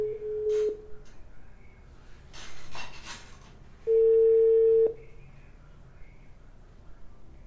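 Telephone call tones on a line where the person being called is busy: two long, steady, mid-pitched beeps, each under a second, separated by a pause with faint noise.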